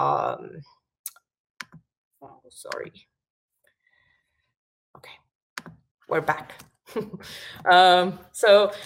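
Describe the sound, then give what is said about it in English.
A few sparse keystroke clicks from typing a search term on a computer keyboard, separated by pauses. Someone talks before and after the typing. “in this case, I'm typing a term called customer”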